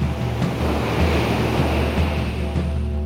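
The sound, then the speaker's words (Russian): High sea waves churn and close in a loud, continuous roaring wash with a deep low rumble and windy hiss, steady throughout with no separate breaks. “Тут же ударил серебряный владыка хвостом по морю, и сомкнулись высокие волны.”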